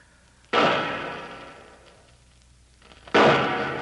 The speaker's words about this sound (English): the way he's spacing them shots... Yeah, that's a signal for help